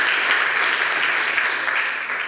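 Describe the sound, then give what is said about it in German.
Steady applause from an audience at a talk about a forced-labour camp in central Leipzig, a thick, even rush of many hands clapping at once, loud and unbroken with no pause. “Applaus”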